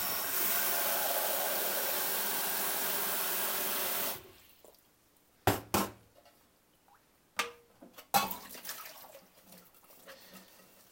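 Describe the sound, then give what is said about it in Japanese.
Kitchen tap running while a beer tumbler is washed at the sink. The steady rushing stream stops abruptly after about four seconds, followed by a few sharp knocks and clatters of handling in the basin. “ビアタンブラーから洗っていきます”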